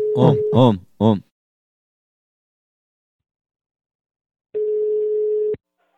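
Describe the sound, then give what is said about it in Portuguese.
A brief voice is followed by silence while a call is being placed, then a single steady telephone tone of about one second at a level pitch, ending abruptly. “Eu agora vou ligar.”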